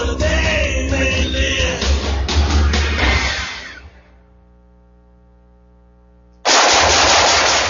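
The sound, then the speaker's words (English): Rapid automatic gunfire rattles loudly in a dense burst, then fades into a low, steady hum. Near the end, a sudden loud burst of noise cuts back in. “Nice shooting.”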